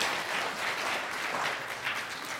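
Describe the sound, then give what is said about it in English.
An audience applauds during a sermon, with steady, dense clapping that holds at an even level throughout. “Can we clap for them very well, please?”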